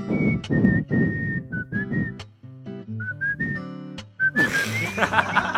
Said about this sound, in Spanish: Esa canción de silbido la escucharéis mejor de fondo.